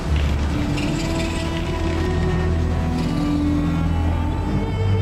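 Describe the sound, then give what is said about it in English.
A ship descends on an elevator in a stylized sci-fi action video game, with a dense, loud mechanical drone, low hum and fine rattling grind that continue steadily throughout. “Sort of ship is going down an elevator.”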